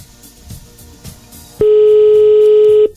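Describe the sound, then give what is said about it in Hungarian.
A telephone call tone sounds as one steady, loud, mid-pitched beep lasting just over a second, starting abruptly after a quiet stretch and cutting off cleanly. “Hívjuk a nap hallgatóját már is.”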